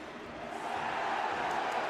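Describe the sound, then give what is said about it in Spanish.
A football stadium crowd at a Portland versus New York City match roars after a foul, demanding a yellow card. The noise is a dense, sustained wash of voices that swells slightly and holds steady throughout. “El público pidiendo tarjeta amarilla.”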